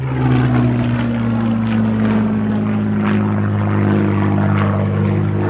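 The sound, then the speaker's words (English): A Spitfire flies overhead at an air museum, its propeller engine producing a loud, continuous low drone with a strong, steady hum that sinks slightly in pitch over a few seconds. “That's the sound of freedom. That is a Spitfire.”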